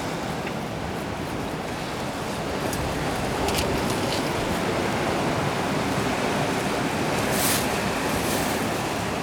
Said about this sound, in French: Le son de la mer, c'est un peu comme la neige.